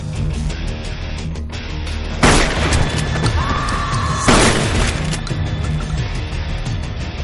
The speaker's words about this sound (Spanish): Coge una escopeta de cañón recortado y camina hacia la tienda. Dispara a las chicas de las motosierras.